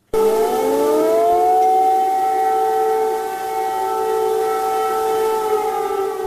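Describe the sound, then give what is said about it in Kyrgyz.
Air raid sirens in Kyiv warn of a missile threat. Several loud, overlapping steady tones climb in pitch over the first moments, then hold a sustained wail. No voices are heard. “Биринчи декабрдын таңында баш кала Киевде ракеталык коркунуч тууралуу эскерткен сиреналар кайрадан жаңырды.”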